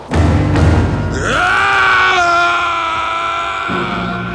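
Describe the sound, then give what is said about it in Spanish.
A scream comes from a valley, loud and sustained, sliding upward in pitch before holding a steady wailing tone over a low continuous rumble. “oyó un grito que provenía de la zona del valle que la luz había arrasado.”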